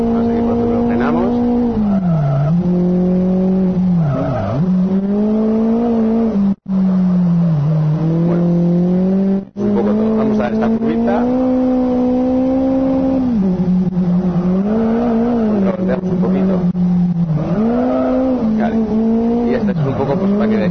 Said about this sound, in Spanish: Si lo dejo quieto, no acelera. Si lo hago así, acelera. Bueno, aceleramos, ¿no?